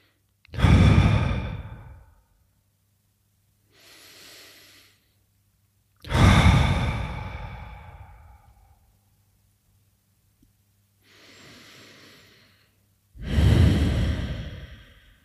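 Slow, deep breaths in and out: three loud, drawn-out breaths with long fading tails alternate with two softer, shorter breaths. Long silent gaps separate them, and no one speaks.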